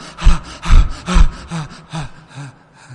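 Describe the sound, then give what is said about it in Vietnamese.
A voice imitates the laboured, gasping breath of a dying person: a series of uneven, rasping in-and-out breaths, loud at first and growing fainter, with no words. “thấy những người sắp chết họ thở dốc như thế chưa? Thấy chưa? Họ thở vào hít ra không đều hòa”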